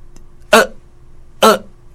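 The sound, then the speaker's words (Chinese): A voice imitates a child's hiccup with two short, sharp, breathy bursts about a second apart, each loud and abrupt against near silence. “囡仔打嗝是安尼，有无？”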